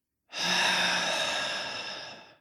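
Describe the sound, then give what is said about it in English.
A deep, slow breath taken in a relaxing breathing exercise, heard alone as one long, soft, airy rush of breath that holds steady and then gradually fades away. “let's take a deep in breath way into the belly. And then slowly out.”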